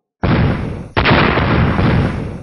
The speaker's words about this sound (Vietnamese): Dày đặc tiếng nổ mạnh liên tiếp phát ra